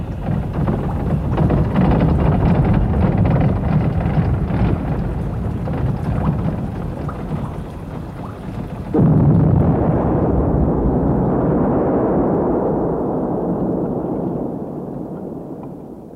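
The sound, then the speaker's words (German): A thrown bomb explodes: a rumbling, noisy roar is broken midway by a sudden loud blast, which then trails off into a long, darkening rumble that fades at the end. “Janek hat seine Bombe geworfen.”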